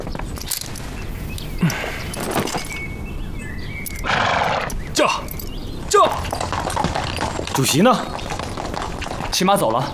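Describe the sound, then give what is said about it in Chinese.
Horse hooves clip-clop as a rider sets off on horseback from a village, a run of irregular hoof beats over a broad, noisy background, with people talking throughout. “主席呢？骑马走了。”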